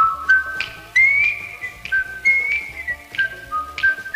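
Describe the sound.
Whistled melody of a TV sitcom theme tune, a pure, bright tone stepping through many short notes and slides in a jaunty, lilting rhythm, clear and alone with no talk.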